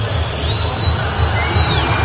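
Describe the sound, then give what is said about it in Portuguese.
Stadium crowd booing the home side's number 13 defender as he is substituted off at Arena MRV during an Atlético versus Santos football match, a loud, sustained wash of crowd noise with a thin high whistling tone riding above it. “Totalmente vaiado o Lianco aqui na Arena MRV, o camisa número 13.”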